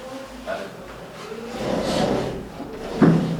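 A window slides open with a low, grinding scrape that swells and fades over a second or so, followed by a brief knock-like bump.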